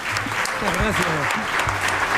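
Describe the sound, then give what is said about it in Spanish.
An audience breaks into applause for a guest, a dense patter of many hands clapping with a voice sounding over it. “Un aplauso para José Ramón.”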